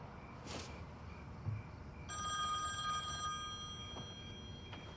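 Telephone ringing: one bright, buzzing electronic ring lasting about a second, faint and on its own, with a brief soft rustle before it and a quiet trailing tone afterward.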